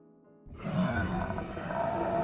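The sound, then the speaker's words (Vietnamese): An eerie roar coming from inside a cave sets in abruptly after a quiet start and then holds as a deep, sustained, growling rumble. “Một tiếng gầm ghê rợn phát ra từ trong hang.”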